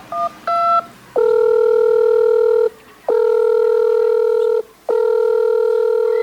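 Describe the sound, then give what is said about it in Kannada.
A phone call to a doctor is dialed: a few quick keypad tones, then three long, loud ringing tones with short pauses between them. “ಇವಾಗಾದ್ರು ಡಾಕ್ಟ್ರಿಗೆ phone ಮಾಡಿ ಯಾವಾಗ ಬರ್ತಾರಂತ ಕೇಳು.”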